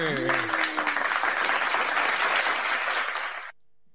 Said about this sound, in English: Mate, that audience is going wild back there just quietly.